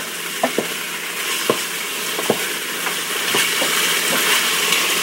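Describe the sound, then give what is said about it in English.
Food browning in a pan for a gravy, with leeks and onions to be seasoned, sizzles steadily. A broad frying hiss runs throughout, broken by a few sharp clicks and scrapes of stirring. “caramely bits in there and that will make a very good gravy at the end of the browning cycle so that we can season the leeks and onions.”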